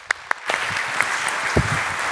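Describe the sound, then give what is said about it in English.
Applause from a church audience welcoming a guest speaker, opening with a couple of isolated claps before swelling into steady, fairly soft clapping. “put your hands together and welcome Jeff Snell today”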